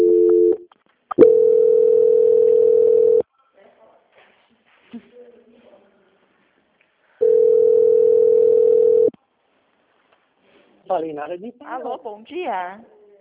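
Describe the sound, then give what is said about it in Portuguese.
A phone line tone sounds while a bank call is transferred to quality control: two long, steady, mid-pitched tones of about two seconds each, separated by a quiet gap with faint clicks. A warbling sound follows at the end. “eu vou transferir essa ligação para o controle de qualidade”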